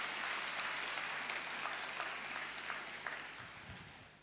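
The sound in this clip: A crowd at a gathering claps to welcome a guest speaker, a steady dense wash of applause that holds evenly and then slowly thins out toward the end.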